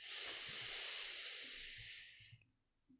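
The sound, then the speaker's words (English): A person inhaling deeply during a breathing exercise: a long, steady, airy hiss lasting over two seconds, then cutting off into near silence. “You're going to want to inhale.”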